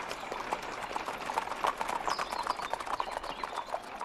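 Horse hooves clip-clop as a wedding carriage procession arrives at a mansion, with many quick, even hoof beats continuing steadily at a fairly low volume.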